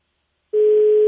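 A steady telephone line tone sounds while a call is being placed. It starts abruptly after about half a second of silence and holds one unbroken, even pitch to the end, with no voices.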